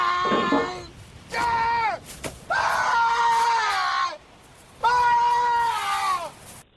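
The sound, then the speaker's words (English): A man's loud, drawn-out yell from a film castaway scene comes in a series of long, strained, harmonic-rich cries separated by short pauses. The pitch sags toward the end of each cry. “Tom Hanks, you remember in Castaway, he had that yell. He has that famous yell, and it sounds like this.”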